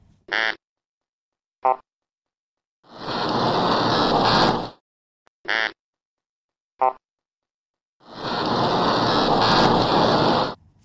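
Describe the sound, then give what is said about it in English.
Grunter fish, also called tarrapon, recorded underwater by oceanographers: two short knocking croaks followed by a long rasping grunt, the whole pattern repeated twice with silence between sounds. “Well, that was the sound of a grunter fish, also known as a tarrapon.”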